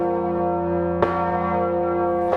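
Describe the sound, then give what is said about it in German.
A church bell swung by hand-pulled ropes gives a deep, sustained ringing tone throughout, with two loud clangs of the clapper cutting in over the lingering hum. “Erst werden die Seile auf der einen Seite nach unten gezogen, dann die auf der anderen Seite. Langsam setzt sich die Glocke so in pendelnde Bewegung.”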